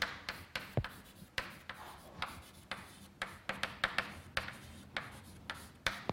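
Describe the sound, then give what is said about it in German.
Handwriting as someone writes notes during a physics explanation: many faint, irregular scratches and light taps, with no talking. “Also schreibe ich das jetzt nochmal hin.”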